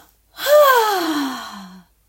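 A person imitates a big voiced exhale, a long sigh-like breath whose pitch glides steadily downward, strong at the start and slowly fading.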